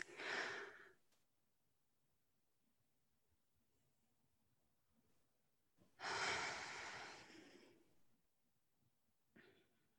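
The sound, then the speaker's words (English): A group takes a collective deep breath: a short breath, a long quiet pause, then a long deep breath that trails off, followed by a faint, brief breath at the end. “let's all just take one collective deep breath. Okay, ready? Let's go.”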